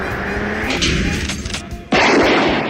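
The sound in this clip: A gunshot at a gun range: a sudden loud blast cuts in about two-thirds through, after a stretch of steady, noisy background, and its sound stays loud to the end.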